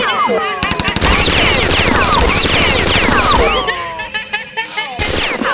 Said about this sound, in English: Crikey, I must have picked up the wrong gun.